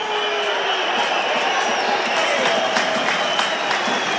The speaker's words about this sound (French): Il rappelle Penaud à l'ordre, semble-t-il. Avec le public qui gronde.